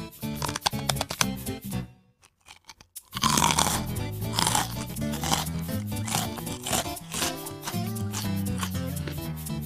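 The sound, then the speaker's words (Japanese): A thick, hard rice cracker being bitten and crunched in a dense run of sharp, crackly crunches. After a short quiet pause the chewing resumes, loud and steady, with grinding crackles. “しっかりとした歯ごたえおせんべいそのものもこう厚みがありますねもう一口”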